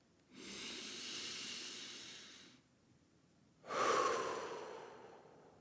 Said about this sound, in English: I'm going to take a quick breath. You're welcome to join me.